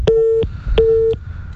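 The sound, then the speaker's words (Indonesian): A phone line tone sounds after a call drops: two identical steady mid-pitched beeps, each lasting about a third of a second, separated by a short silence, clear and alone. “Ya, nampaknya kami terputus dengan Pak Setio. Kami akan coba menghubungi kembali.”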